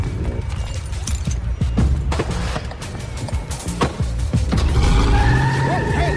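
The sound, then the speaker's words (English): A Cadillac accelerates and spins around a corner. The engine roars and the tires scrape and squeal in several bursts, and a sustained high squeal with a louder surge comes near the end. “Wax accelerates, then spins the Cadillac around the corner and heads behind the restaurant.”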